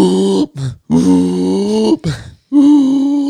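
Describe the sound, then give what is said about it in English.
A voice imitates someone gasping for air after a capsized boat: a few strained, groaning, breathy vocal bursts broken by short pauses. “trying to just gasp for air.”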